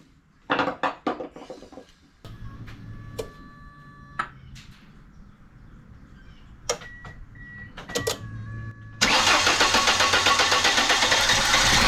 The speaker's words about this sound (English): So how will you know if you fix the fuel pump or not? If it starts.